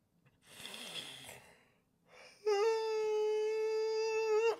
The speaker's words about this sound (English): that was a yawn, people.